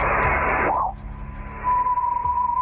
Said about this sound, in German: Also wenn ein Meteor in unserer Erdatmosphäre verglüht und wir das so als leuchtenden Streifen am Nachthimmel sehen und uns vielleicht irgendwas wünschen. Dieses Geräusch, ja, das klingt so.